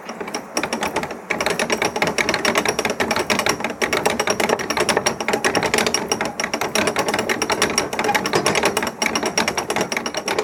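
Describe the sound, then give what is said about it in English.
Dense, loud rattling clatter from well-greased ratchets on a canal lock gate's winding gear, a continuous mechanical chatter that runs steadily throughout with only a brief dip near the start. “The winding gear is well greased, rattling ratchets thickly covered in slippery black treacle.”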